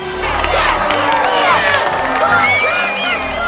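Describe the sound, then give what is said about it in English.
Baseball fans cheer as the team runs out onto the diamond. A dense, continuous roar of shouts and whoops holds a steady loudness throughout, with no single voice standing out. “As the Cubs run out onto the diamond, the fans jump to their feet, clapping and cheering.”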